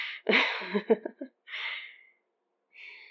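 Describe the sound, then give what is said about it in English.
A deep nervous breath taken late at night: a breathy intake, a few shaky voiced catches, then a longer airy exhale, with another soft breath starting after a short silence. “And another deep breath for good luck, I guess.”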